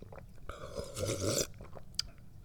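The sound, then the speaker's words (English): Tea slurped and drunk from a cup: a wet, airy slurp rises to a noisy peak lasting about a second, followed by quieter mouth sounds and one brief click near the end. “Oh, and I think it's time for me to get into some more of this tea.”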